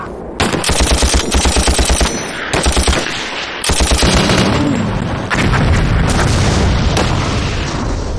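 Heavy gunfire from guns and cannons in a war drama battle: loud, rapid machine-gun bursts in repeated volleys, then a dense, continuous barrage broken by deep booming blasts.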